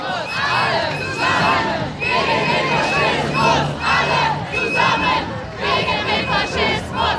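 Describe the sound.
A large protest crowd outside a hall hosting an AfD state party conference shouts and chants loudly and without pause, a dense roar of many voices with rising and falling bursts of yelling.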